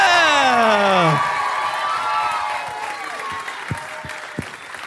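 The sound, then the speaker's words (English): Audience applause and cheering as hosts are welcomed onto the stage at a live show. A loud whooping voice falls in pitch at the start, then steady, dense clapping continues with scattered shouts. “Could you please put your hands together and welcome to the stage Matt Stewart and Jess Perkins.”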